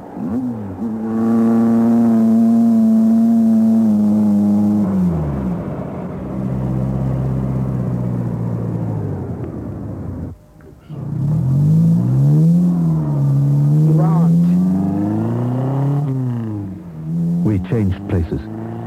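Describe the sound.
A car engine drones and revs as it drives, its tone climbing and falling through gear changes, with a brief lull midway before it pulls loudly again.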